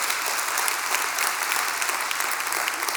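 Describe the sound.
Warm applause from an audience at a televised church service greets viewers, a dense, steady patter of clapping with a few sharper claps poking through, moderately quiet and free of speech.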